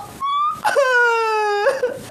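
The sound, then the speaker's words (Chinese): A person crying in two drawn-out wailing cries. The first is brief, the second is longer and sustained, and both have a strained, tonal, moaning quality. “你怎么还哭上了？你别哭啊！”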